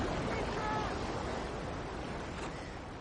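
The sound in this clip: Ocean surf and breaking waves as a surfer carries a board out toward other surfers: a continuous, broad, rushing roar that stays steady and loud throughout.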